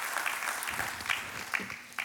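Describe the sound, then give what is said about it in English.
Audience applause as a speaker comes up to the stage, a steady wash of many hands clapping with no break. “Y'all give Emily a big hand as she comes up to the stage today.”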